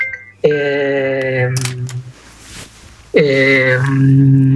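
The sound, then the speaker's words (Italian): A studio bell sounds to signal a phone call, giving two loud, sustained chime tones with a clear pitch and separated by a quieter gap. “questo campanello vuol dire che tu devi rispondere al telefono, ma anche che noi dobbiamo dare la linea al GR.”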